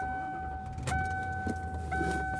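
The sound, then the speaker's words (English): A car being driven gives a steady, quiet low engine and road rumble under a faint sustained tone, with a few brief clicks or knocks on top and no talk. “And I am driving home.”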